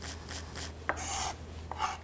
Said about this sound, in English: So I'm just gonna slice through and keep them held together over here. And then we're gonna just chop them finely.